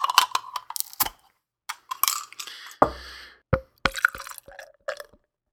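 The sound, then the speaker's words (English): A can of Auld Acquaintance wassail beer being cracked open: scattered sharp clicks and taps of handling, then one louder crack with a short fizzing hiss, followed by more light taps before it falls quiet. “So the Auld Acquaintance comes in at 5% ABV with 32 IBUs. I'm going to go ahead and crack it.”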